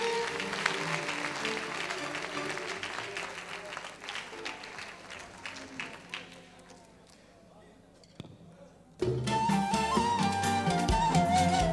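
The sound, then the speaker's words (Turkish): Audience applauding composer Selçuk Tekay and his colleagues, clapping that gradually thins and fades over several seconds before a brief quiet gap, then loud music begins. “Ve bir kez kocaman bir Selçuk Tekay ve arkadaşlarını alkışlayalım mı?”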